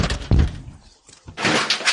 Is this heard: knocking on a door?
yes

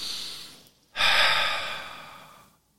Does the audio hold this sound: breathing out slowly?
yes

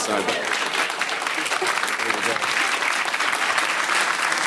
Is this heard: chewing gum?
no

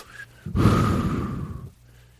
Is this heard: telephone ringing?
no

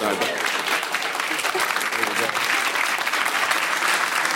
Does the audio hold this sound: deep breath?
no

